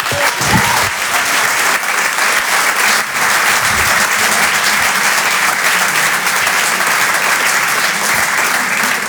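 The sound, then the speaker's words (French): Applause from a comedy club audience welcoming a comedian to the stage: dense, steady clapping that stays loud and even from start to finish, with no voices over it. “Faites du bruit s'il vous plaît pour Jérémy Lorca.”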